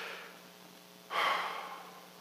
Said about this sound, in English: Just take a deep breath with me. If you're in the room or you're at home, just take a breath with me.